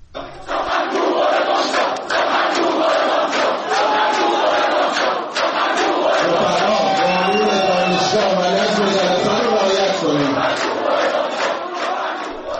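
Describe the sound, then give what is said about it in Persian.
University students chant loudly in protest against a speaker, demanding he leave the campus. The crowd's chanting and shouting voices keep up a dense, unbroken roar throughout. “آقای بهادری جهرومی قطع شده، دانشجویان خواستار بیرون رفتن و اخراج او از دانشگاه شده بودند. صدای یکی از این اعتراض‌ها رو بشنویم الان.”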